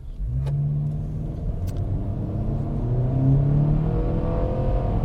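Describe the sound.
A car drives on a road during a hard emergency-braking test, its engine giving a steady, low rumble throughout with no voices.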